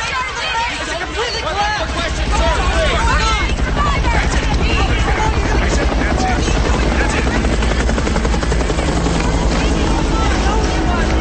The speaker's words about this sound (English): Police come to their rescue. Helicopters with searchlights hover overhead.